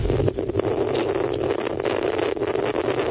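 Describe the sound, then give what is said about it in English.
Wind blows straight into the microphone, making a loud, rumbling, buffeting roar that stays constant and harsh across the whole stretch. “Here comes the wind, which will destroy the recording.”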